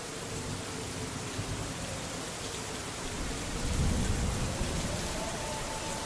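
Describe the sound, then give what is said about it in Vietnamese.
Heavy rain hisses steadily as a storm approaches, and a low thunder rumble swells midway through before easing back under the downpour. “Sấm chớp ầm ĩ trên trời cao, mưa to sắp đến.”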